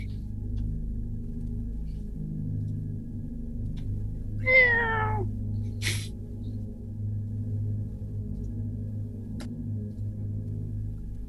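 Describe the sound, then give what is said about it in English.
A single short, high meow like a small cat's comes from behind a trap door over a steady low hum, followed by a sharp click and, later, a faint tick. “Just like meowing of a cat, small cat.”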